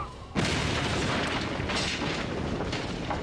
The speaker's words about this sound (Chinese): 亚当开着一辆铲车挡在人和大炮之间，并带着众人推到了一百五十英尺之后的距离，一声令下，引燃引线。